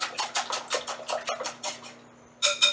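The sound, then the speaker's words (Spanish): Egg whisked vigorously in a bowl, with salt and pepper sifted over it: many quick, rhythmic clinking strokes, then a short pause and two more sharp taps. “Lo cernimos encima del huevo y lo batimos enérgicamente, mezclando todo rápido.”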